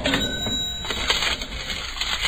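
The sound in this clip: A supermarket checkout in Germany gives off a continuous clatter of clinks, rattles and rustles. A thin, high steady tone runs throughout.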